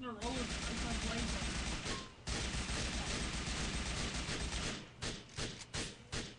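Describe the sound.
Rapid gunfire in a video game: dense, loud, continuous shooting with one brief gap, then several separate short bursts near the end.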